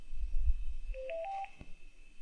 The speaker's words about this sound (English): Call voicemail now? Yes. Calling Verizon Wireless.